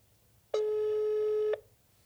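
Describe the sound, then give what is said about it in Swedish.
A telephone ringing tone sounds while a call is placed: one steady, mid-pitched electronic beep lasting about a second, clean and alone before quiet returns. “Ska vi ta och ringa honom?”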